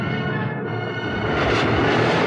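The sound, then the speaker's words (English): A spaceship's engines start up in a sound effect: a broad, steady rumbling roar that grows louder and denser in its second half, rushing and airy like a jet, with no voices. “At a safe distance, he activates the engines and heads for Bespin, home of Lando Calrissian.”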